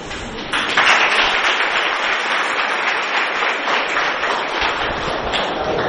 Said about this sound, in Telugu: ఏ నమ్మకంతో మీరు చప్పట్లు కొట్టారో ఆ నమ్మకాన్ని నిజం చేయడానికి ప్రయత్నం చేస్తాను.